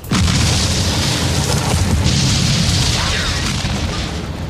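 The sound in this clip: A grenade explodes inside a tank: a loud, dense rumbling boom fills the whole clip, holding steady before easing slightly toward the end.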